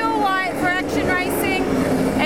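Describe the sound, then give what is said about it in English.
Race cars roaring past on a circuit, a few passes of whining engine tones that swell and fall in pitch over a constant rumble of engine noise. “But listen to these babies roar as they go past. They sound tough. And here he is now. Woo! The number 71 car”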